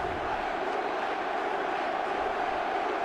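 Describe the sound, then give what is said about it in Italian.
Football fans chant in a stadium during a Juventus match against Sassuolo. Many voices form a dense, sustained roar that stays steady and loud throughout. “Sale il coro dei tifosi in una serata che, ricordiamo, l'ha visto anche la protesta della curva sud.”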